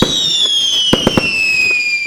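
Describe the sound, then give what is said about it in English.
Fireworks at a local show with rides and food stalls. A high whistle glides slowly downward over a steady crackling hiss, broken by several sharp pops. “Mark your calendar for fireworks, rides, food, fun, and more when the iconic Mount Gravatt Show returns on July 25 and 26.”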